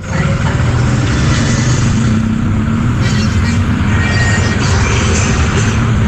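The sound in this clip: Heavy road traffic on Panji Suroso road makes a loud, continuous rumble of car and truck engines that holds steady throughout, with no single vehicle standing out.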